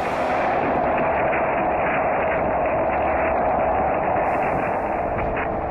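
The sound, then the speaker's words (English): Sonified sound of the sun: a loud, steady roar of dense rushing noise with a faint fluttering texture, unchanging from start to end. “This is the sound of the sun.”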